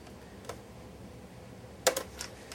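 Faint keystrokes of text being typed on a computer keyboard, a few sparse clicks over a low steady hiss, with a small cluster of taps near the end.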